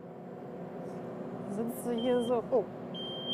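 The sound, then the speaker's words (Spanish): A large construction machine's seat-sensor warning beep, set off when the operator's seat is empty, rises as a steady high-pitched tone near the end over a low rumble and people talking. “Solo pita porque tienes el trasero levantado del asiento.”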